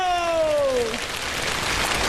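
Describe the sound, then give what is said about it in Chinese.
Applause at a comedy show: a long, drawn-out voice falls in pitch, then dense clapping fills the rest in an even, hissing clatter. “大家来点掌声和尖叫。”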